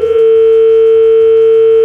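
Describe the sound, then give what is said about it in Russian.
Steady telephone dial tone, a continuous unbroken hum that holds one even pitch throughout, heard alone. “Теперь я звоню.”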